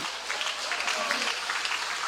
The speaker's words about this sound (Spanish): ¿Cuánto damos palmas al Señor? Aleluya.